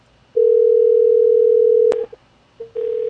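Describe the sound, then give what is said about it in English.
A telephone voicemail transfer tone: a steady, loud, mid-pitched beep holds for well over a second and ends in a click. A brief blip follows, then the same tone resumes. “I heard a voicemail transfer.”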